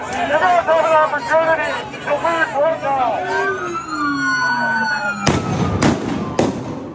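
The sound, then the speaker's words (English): Flashbang grenades and rubber bullets fired by armored agents at protesters during an immigration enforcement protest. Three sharp, loud bangs come in quick succession after people shout and a falling, siren-like wail sounds. “as you'll hear, they continued undeterred and were met with armored trucks, agents carrying riot shields and rifles, and agents fired at protesters with rubber bullets and threw flashbang grenades.”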